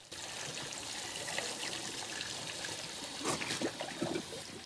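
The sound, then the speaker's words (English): Tap water runs at a bathroom sink while a man rinses his mouth: a steady, hissing stream throughout, with a few louder splashes and sloshes near the end. “He wipes steam off the mirror and rinses out his mouth with water.”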